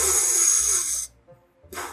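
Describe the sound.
A voice imitates a snail breathing through mud, a raspy, snore-like hiss lasting about a second, then a short quiet pause before the rough breathy noise starts up again.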